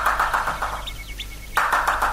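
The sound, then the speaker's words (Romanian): A woodpecker pecks a hollow in a tree: rapid, regular knocking bursts over steady background noise, stopping briefly midway and then starting again. “Nu, e o ciocănitoare care scobește într-o scorbură. Uite, trebuie să fie pe copacul acela de care te sprijin tu.”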